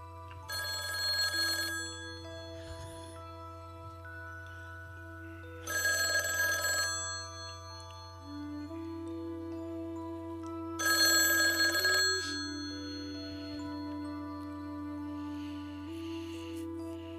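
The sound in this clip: A telephone bell rings with an incoming call to a call-in radio program. It sounds in three separate bursts, each about a second long and roughly five seconds apart, over a steady low hum and faint tonal background.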